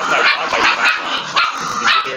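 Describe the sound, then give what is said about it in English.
Dogs barking excitedly in a rapid, loud series of sharp barks that overlap and run together without pause. “I'm going to cut this part out. My dogs went crazy.”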